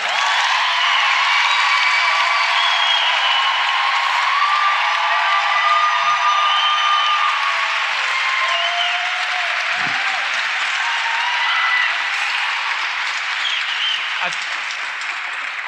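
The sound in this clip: An audience in Sydney cheers and applauds as writer Roxane Gay arrives as a guest, a dense, steady wash of clapping and crowd noise that holds at full strength throughout without a break.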